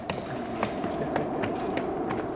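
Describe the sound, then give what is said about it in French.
Footsteps climb a red staircase leading up to a studio, a series of regular thuds at a steady pace over a constant low hum. “Eh bien allons-y, on va monter cet escalier rouge qui nous mène au studio.”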